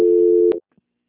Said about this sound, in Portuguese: Só um instante. Transferência.